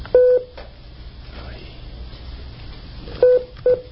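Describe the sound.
Three telephone keypad tones as a passcode is entered on a conference-call line. One short beep comes first, then a long quiet gap, then two more beeps close together, each sharp and clear over a low background hum.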